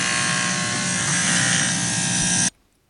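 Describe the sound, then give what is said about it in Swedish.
Electric clippers buzz steadily as a man shaves off his hair in a Sex and the City season 6 scene. The loud, even drone runs without a break, then cuts off abruptly near the end. “det är Samanthas kille i Sex and the City säsong 6 som rakar av sitt hår i sympati med henne, eftersom hon tar cellgifter och han bestämmer sig alltså för att raka av sitt hår.”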